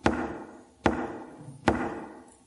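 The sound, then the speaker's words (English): Knocking on a house door by the home's owner standing outside: three slow, heavy, evenly spaced knocks, each a sharp thump followed by a lingering fade. “The owner of the home, knocking.”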